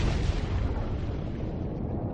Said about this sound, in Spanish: Otra gran explosión lo lanza al mar.